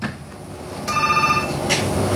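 A telephone rings for a phone-in call. One short bright ring burst rises over steady background noise, and no one speaks.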